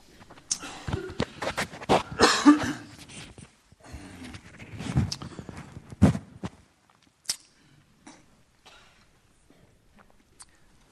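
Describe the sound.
A man coughs during a church sermon after inhaling something: a rough cluster of sharp, irregular bursts for several seconds, thinning to a few faint, scattered ones before silence.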